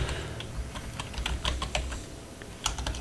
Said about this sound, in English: God damn it. Uh, okay, I should not type after drinking.